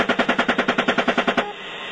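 Automatic gunfire aimed at a van during the Iraq war: a rapid burst of many loud, evenly spaced shots that runs for about a second and a half, then stops abruptly, leaving a steady hiss.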